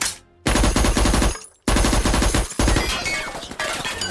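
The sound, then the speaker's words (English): Rapid, loud machine-gun fire from an 1886 model Maxim machine gun, coming in a few long sustained bursts separated by brief pauses. “1886 model Maxim machine gun. This is way better than my Walker Colts.”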